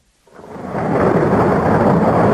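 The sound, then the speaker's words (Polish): Thunderstorm sound effect with thunder and heavy rain: after a short quiet start, a deep rumble swells up and settles into a loud, steady roar of downpour and thunder. “Z grzmotami i błyskawicami? I z ulewnym deszczem?”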